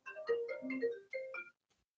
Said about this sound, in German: Jetzt hat jemand angerufen.